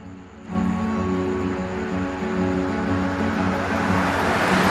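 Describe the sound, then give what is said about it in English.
A van drives at night, its engine a steady low drone with a hum of road noise that starts suddenly and stays even throughout. “The van drives on in the dark.”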